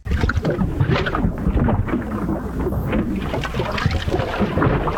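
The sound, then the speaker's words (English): Gurgling water in a clogged drain: a loud, continuous bubbling and sloshing wash that runs without a break. “Uh-oh, is that another clogged drain?”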